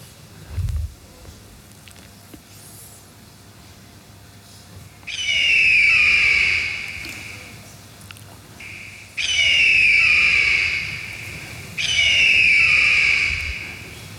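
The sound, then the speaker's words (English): A voice imitates an eagle's cry with three long, loud, shrill screeching calls separated by short pauses. Each call holds a high, piercing tone, and no other voices are heard. “Hear what an eagle sound like. You know, an eagle sound like this.”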